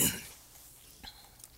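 A throat clearing from someone with a dry throat: one short, harsh, rasping burst at the start, followed by a couple of faint, brief throat noises.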